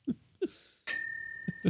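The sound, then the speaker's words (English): A single bell is struck and rings with a clear, bright metallic tone that lingers to the end, with a few short vocal sounds before and during the ring. “I'll get an extra one for the guy who rings the bell.”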